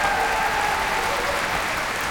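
Applause from a concert audience for a radio symphony orchestra and its young Norwegian conductor, a dense, even wash of clapping that holds steady for the whole stretch.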